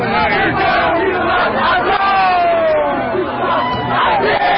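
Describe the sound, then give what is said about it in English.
Protesters chant and shout as a loud, dense crowd outside a tower on a New York City street. The voices rise and fall in rhythm without a break for the whole clip. “This is the sound of protesters outside Trump Tower in New York City last evening.”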